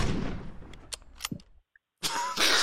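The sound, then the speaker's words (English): Gunshot sound effect: a loud, harsh blast opens and trails off, then a few sharp clicks, a brief silence and another loud, noisy burst. “Shots fired.”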